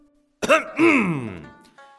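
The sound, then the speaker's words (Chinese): A man's voiced throat clearing, performed as the King of Chu in a retelling of the story of Yanzi's mission to Chu. It comes as a short burst followed by a longer, lower rumbling ahem, alone and fairly loud. “楚王清了清喉咙，对燕子说道：”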